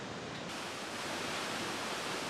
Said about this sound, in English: this is one of the most beautiful waterfalls we've ever seen